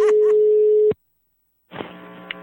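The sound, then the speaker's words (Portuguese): A telephone ringback tone sounds as a call is placed: one steady, mid-pitched beep lasting about a second, then a pause of silence before faint noise on the line returns. “agora eu vou ligar pra Helena”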